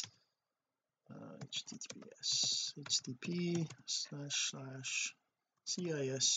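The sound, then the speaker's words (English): Typing on a computer keyboard: quick bursts of key clicks after a short silence at the start, with a person talking over them. “I'm just going to go in here I'm just going to type in the same thing I did on the other one.”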